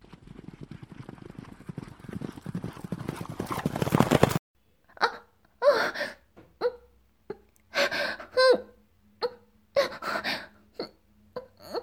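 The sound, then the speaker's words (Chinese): Horse hooves clip-clopping under a rider: a dense stretch of rapid clatter gives way to many separate, hollow, slightly pitched clops in a loose uneven rhythm. “我可以骑马了，那太好了。”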